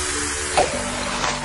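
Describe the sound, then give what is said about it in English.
Fizzing of a large Coke soda from McDonald's: a steady, even hiss of bubbles lasting about a second and a half, with one brief louder burst partway through. “This is the sound of a large Coke at McDonald's.”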